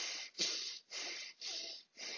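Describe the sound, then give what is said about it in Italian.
Fast, deep breathing in a guided breathing exercise: loud, breathy inhales and exhales in a steady, quick rhythm, about one breath every half second, with no talking. “Quando poi c'è il respiro veloce e profondo”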